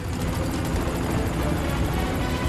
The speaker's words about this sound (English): Suddenly, the helicopter lifts off, hovering above the road.